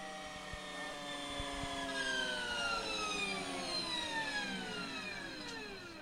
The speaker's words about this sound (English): That sound is the revving of Harley-Davidson's first electric motorcycle, one of the few amongst the cars, trucks, and buses at the Zero Emission Vehicle Showcase.